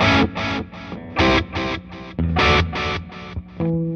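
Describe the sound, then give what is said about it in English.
An electric guitar plays through delay pedals on an amp's gain channel: a quick run of loud, bright plucked notes, each trailed by short echoes. “Only thing that moved are these two pedals. The delay now sounds like this.”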